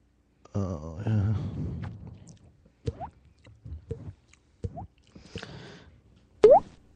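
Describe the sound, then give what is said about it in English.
Farts: several short, squelchy pops spaced irregularly after a longer wavering blast at the start, the last ending in a quick rising squeak. “You guys I heard that. These amazing farts I'm doing right now.”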